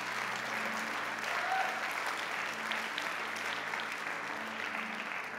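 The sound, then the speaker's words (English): Audience clapping after a fundraising pledge is announced, a steady, dense wash of applause that holds at an even loudness through the whole clip without clear separate claps. “That's worth a clap, I think.”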